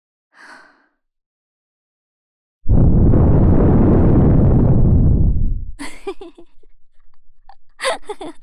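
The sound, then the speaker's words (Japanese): Breath blown steadily into a listener's ear makes one loud, sustained breathy whoosh lasting about three seconds. A brief faint breath comes just before it, and soft rustling with faint whispery sounds follows. “ふうふうって息吹きかけてるだけなのに、そんなにビクってするものなのね。”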